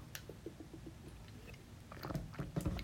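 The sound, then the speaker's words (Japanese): Someone drinks water, making faint wet mouth sounds: a run of soft gulps and clicks, quiet and without talk. “水を飲みます。”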